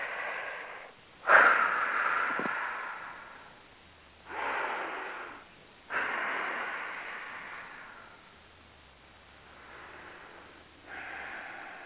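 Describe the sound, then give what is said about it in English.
A few slow, deep breaths from a group meditation and healing session, each a soft breathy swell followed by a quiet pause, with no talking. “So we're going to take a couple of deep breaths, and then we're going to be quiet for about 15, 20 seconds”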